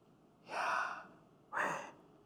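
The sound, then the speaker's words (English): Breath-like pronunciation of a word made only of vowels, voiced close to a microphone: two airy, drawn-out exhalation-like bursts, the first longer and the second shorter, with no clear consonants. “do you hear it? It sounds like breathing to pronounce these vowels all together.”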